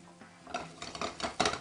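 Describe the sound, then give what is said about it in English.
A plate is picked up and handled to serve a maple pork chop with wild mushroom and apple. It sounds like a few light ceramic clinks and scrapes, rising to a sharper knock at the end. “I'm going to grab our plate here. Grab our chop.”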